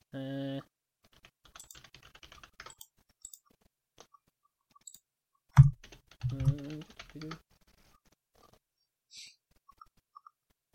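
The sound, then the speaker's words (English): Fingers type on a computer keyboard while someone looks something up, producing a sparse, irregular run of faint light key clicks, with bursts of speech before and after. “I must have typed something in wrong”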